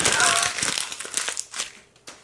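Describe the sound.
Paper is crumpled up into a ball with dense crinkling and crackling at first, then thins to a few sporadic, fading crackles.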